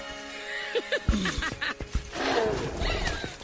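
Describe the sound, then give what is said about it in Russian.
Horse breaking into a gallop, with a whinny and a burst of quick, thumping hoofbeats that fade into a softer, blurred rumble. “Лошадь срывается в галоп.”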